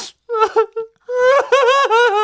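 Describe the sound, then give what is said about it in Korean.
A person cries at a wedding celebration with wavering, voiced sobs. A few short broken cries come first, then a longer quavering wail that rises and falls, with no other sounds. “야, 너 진짜 왜 울어? 아니, 그냥 너무 깊어서 눈물이 나네.”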